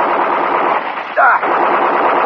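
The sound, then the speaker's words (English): Machine gun fire aimed at a huge scaled creature: a dense, rapid rattle sustained at even loudness throughout, with a brief sharper accent midway. “That machine gun won't stop it.”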